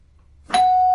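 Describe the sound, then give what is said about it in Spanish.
A single electronic doorbell chime: one bright strike followed by a steady, clear ringing tone with overtones that holds at constant loudness to the end. “Que suene el timbre.”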